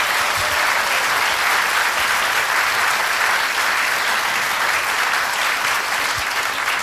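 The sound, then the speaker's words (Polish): Steady, sustained applause from an audience at a stage event, a dense even clatter of many hands that continues without pause throughout. “To też jej wspomnienie i dla niej oklaski teraz, proszę Państwa.”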